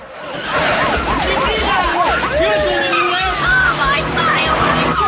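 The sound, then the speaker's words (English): A car speeds down an alley with tires squealing in repeated wavering, rising and falling squeals over a steady, loud engine roar. “They speed down an alleyway, hitting a guy's rack of dresses. Police cars try to follow, but the guy stops them.”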